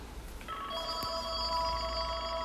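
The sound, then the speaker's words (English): A telephone rings early in the morning, its steady, bright electronic tone starting after a brief pause and holding to the end over a low background hum. “Who the hell is calling my phone this early in the morning? It's 8 o'clock in the morning, and they're getting a phone call.”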